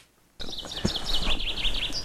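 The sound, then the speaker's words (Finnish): Common chaffinch singing from an oak branch in a spring oak grove: a dense run of bright, high chirps and trills starts abruptly after a short quiet moment and continues steadily to the end. “Nyt Peippo siellä on. Joo. Tammen oksalla istuu.”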